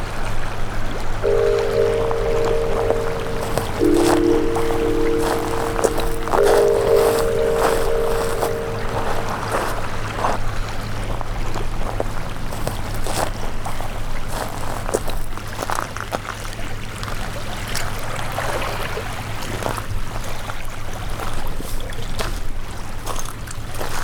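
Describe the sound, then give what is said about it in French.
Small rippling sea waves give a steady, soft watery wash that continues evenly throughout, with a constant low rumble beneath it. “Avec ses vaguelettes qui ondulent, fait un bruit de mer.”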